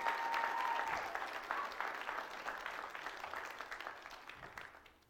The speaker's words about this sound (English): Can we give them a hand, everybody?